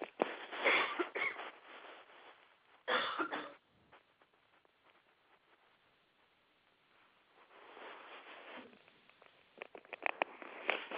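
Throat clearing and coughing from a tickle in the throat: a few rough, throaty bursts near the start, a quiet pause, then softer scattered clearing and sniffing sounds, all fairly faint.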